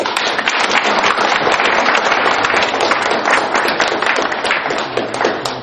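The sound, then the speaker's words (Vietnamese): An audience at a Buddhist dharma talk claps, with dense, loud, steady applause that fills the whole stretch without a break. “Xin vỗ tay.”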